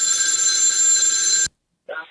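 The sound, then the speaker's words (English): A telephone rings in one continuous, steady electronic burst of about one and a half seconds that cuts off to silence, followed by a brief, fainter sound near the end. “This last Celebrity Death Phone call here.”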